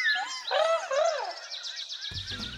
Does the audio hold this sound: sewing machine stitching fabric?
no

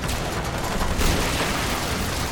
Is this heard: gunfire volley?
yes

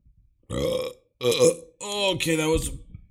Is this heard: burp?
yes

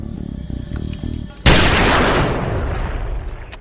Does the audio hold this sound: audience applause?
no

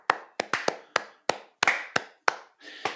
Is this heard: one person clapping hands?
yes

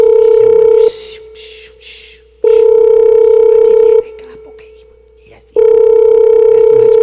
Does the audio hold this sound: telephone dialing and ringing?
yes

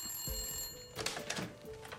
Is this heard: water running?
no

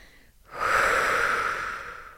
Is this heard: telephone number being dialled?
no

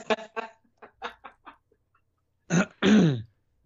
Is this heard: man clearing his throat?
yes

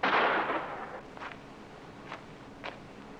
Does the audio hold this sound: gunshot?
yes

